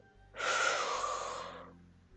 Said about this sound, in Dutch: En dan adem je in.